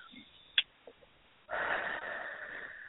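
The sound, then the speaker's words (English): A deep breath drawn in, heard as a steady, airy rush that lasts over a second, after a few faint short clicks and sniffs. “So everybody take a deep breath in on that one.”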